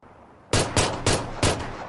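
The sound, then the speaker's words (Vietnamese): Four loud, sharp gunshots ring out at night in quick, slightly uneven succession. Each crack leaves a lingering, noisy tail that runs into the next shot. “Vài tiếng súng phá vỡ bầu trời đêm.”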